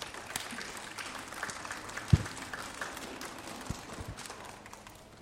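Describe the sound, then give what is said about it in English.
An audience applauds students at a chapel gathering: a faint, steady patter of clapping with a few sharper claps standing out, and no voices. “Keenan Kleibaker, and let's give those students a round of applause.”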